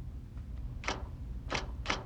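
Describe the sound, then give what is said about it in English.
Typewriter keys strike during a Jaws film scene as someone types a shark attack report: a few sharp, faint clicks at irregular spacing over a low steady hum. “So he goes and types shark attack.”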